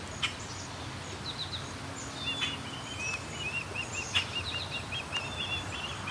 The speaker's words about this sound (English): This osprey is non-stop calling.